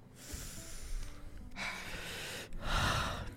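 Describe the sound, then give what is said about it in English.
Heavy breathing blown straight into a microphone: a few loud, rough, noisy breaths follow one another in a steady run, with no talking. “Some fat breaths into the mic.”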